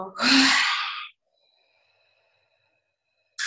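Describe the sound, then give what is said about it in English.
A single deep breath during a guided relaxation exercise: a loud, airy rush of breath lasting about a second, then near silence, with the next breath starting right at the end. “Taking a big breath in. Exhaling, letting go.”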